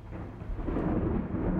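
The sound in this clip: Thunder rolls from a thunderstorm with lightning outside an airplane buffeted by strong winds. A continuous low, heavy rumble swells slightly and carries no voices.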